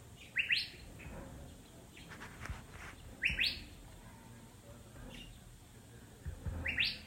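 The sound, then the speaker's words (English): The call of a curved-billed thrasher, a desert bird: three sharp, high, whistled calls spaced evenly a few seconds apart. Each is a quick two-part note, faint against a soft, hissing background. “Our second bird is also a common desert dweller, the curved-billed thrasher. Take a moment to find the bird as we play their call.”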